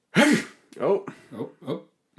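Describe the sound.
A human voice playfully imitates a sneeze, giving four breathy vocal bursts separated by short pauses, the first the loudest and longest.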